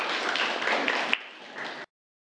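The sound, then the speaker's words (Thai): Students in a classroom applaud a classmate: a dense, steady burst of clapping that holds for under two seconds and then stops abruptly. “ปรบมือให้กับเพื่อนนะครับนักเรียนนะครับ”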